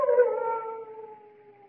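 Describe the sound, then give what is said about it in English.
Large dogs at a chateau howling: one sustained, mournful howl that drifts slightly lower in pitch and fades steadily, heard alone. “What was that? Only the dogs, monsieur.”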